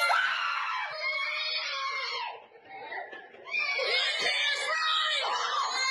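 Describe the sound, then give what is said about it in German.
Children scream in panic at adults in horror masks: a continuous mass of shrill, overlapping screams with a brief dip partway through before the frantic screaming surges back at full loudness. “Du hörst wirklich diese Panik in den Stimmen der Kinder. Ich mach das mal an. Das ist wirklich krass.”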